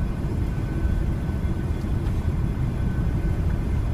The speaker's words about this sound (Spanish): El avión despega sobre la gran ciudad de Buenos Aires.